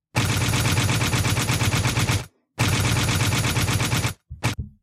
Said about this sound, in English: That's me reloading and unloading the clip on Nick.